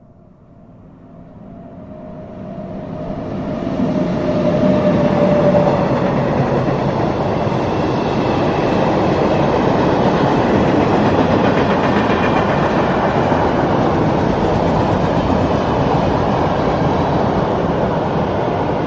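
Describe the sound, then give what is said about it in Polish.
A freight train passes on a line without noise barriers, a broad, heavy rumble that swells over the first few seconds and then holds loud and steady throughout, with no voices. “Dla porównania, ponownie przejeżdżający pociąg towarowy przy braku ekranów akustycznych.”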